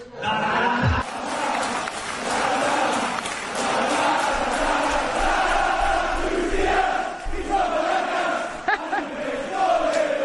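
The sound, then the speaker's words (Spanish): A stadium crowd sings a chant for footballer Luis Díaz, a massed roar of voices that stays loud and sustained throughout, rising and falling with the melody. “¿Qué te parece? El estadio cantándolo para Luis Díaz. Está increíble, ¿no?”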